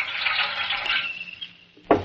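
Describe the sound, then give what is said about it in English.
Photographic developer and fixing fluid being poured into pans in the dark: a steady hissing, splashy stream that thins and fades, then a short thud at the end. “Some developer fluid in his pan. All right, now some fixing fluid in this other pan.”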